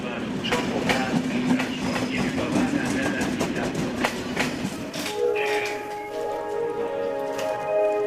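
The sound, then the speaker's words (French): Train and rail noise at a small railway station in northeast Hungary near the Ukrainian border: a dense rumble with sharp rhythmic clicks for about five seconds, then a steadier tonal hum with continued scattered clicks. “Nous sommes dans la petite gare de Zaoni, dans le nord-est de la Hongrie.”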